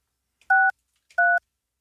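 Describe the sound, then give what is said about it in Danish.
Two touch-tone beeps as a telephone number is dialed, each a steady dual-tone beep about a fifth of a second long, separated by a short silence and heard alone. “jeg ringer til dig nu.”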